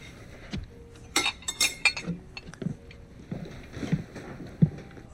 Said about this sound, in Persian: من پاشم این بشقابا رو بردارم، ببخشید میشه بشقاب تو رو هم بردارم؟